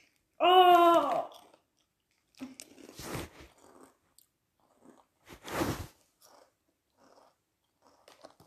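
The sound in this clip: Biting and chewing of Emmentaler cheese: two distinct bites with soft, scattered chewing noises between them in near silence, after a short voiced sound at the start.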